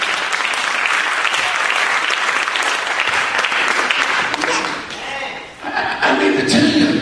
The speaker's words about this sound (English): Oh, somebody clap your hands to the Lord.